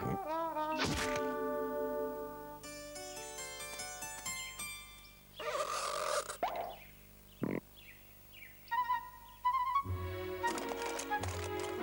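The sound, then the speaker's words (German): A cartoon turkey hunter is hit by a ball and drops out of a tree: a sharp, hollow thunk lands among bright, tonal cartoon effects and musical stings that come in short bursts with brief pauses. “Nur in dem Baum da landen sollte er auf keinen Fall. Apropos Fall, was da vom Ball getroffen runterfällt, das ist kein Hirsch, sondern der uns schon wohlbekannte Truthahnjäger auf der Pirsch.”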